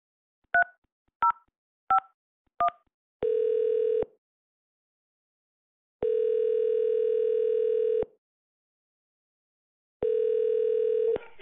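Four short dual-pitch keypad tones dial a patient room number on a rehabilitation center's phone line, followed by three long, steady ringing tones separated by silence.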